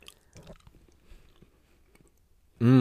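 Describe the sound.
Faint, wet chewing of a blueberry-flavoured snack: a few soft, squishy mouth sounds spread over a couple of seconds, then cut off by a sudden loud tonal sound at the very end.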